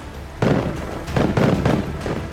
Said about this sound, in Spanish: oyó la estrepitosa descarga de la salva